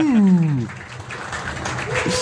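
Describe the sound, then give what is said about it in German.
Applause for a birthday congratulation during a hockey-season conversation. A voice comes first, then a moderate wash of clapping continues beneath further speech. “Applaus.”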